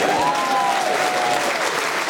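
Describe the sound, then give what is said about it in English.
Audience applause: dense, continuous clapping from a crowd that stays loud and even for about two seconds. “You're applauding.”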